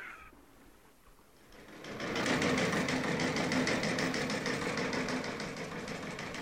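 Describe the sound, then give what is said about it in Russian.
A telegraph apparatus aboard a ship is switched on and runs. After a quiet start, a loud, steady mechanical whirr with a rapid, even clatter builds up and continues without talk. “Включаю телеграф.”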